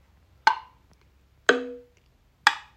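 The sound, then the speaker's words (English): Three short percussion samples strike about a second apart, each with a sharp attack and a quick decaying tail, the middle hit carrying a brief tonal ring. “So you get a couple little percussion samples like that sound like this.”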